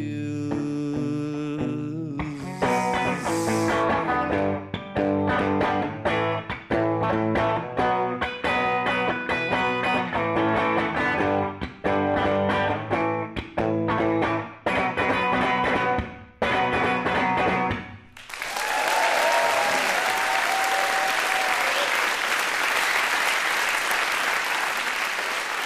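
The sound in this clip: A live song with distorted electric guitar is performed for an audience at BBC Maida Vale Studios, with steady strummed chords. It ends abruptly and gives way to loud, sustained applause.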